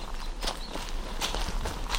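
Footsteps walk outdoors on a farm beside a hay meadow, a steady series of crunching steps at an even walking pace, fairly loud against a constant low outdoor rumble.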